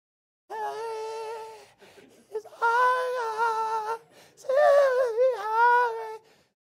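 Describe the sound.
A voice imitates whiny church singing with high, wailing, nasal tones in three sustained phrases, the pitch wavering and bending within each phrase.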